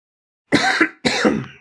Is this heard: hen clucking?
no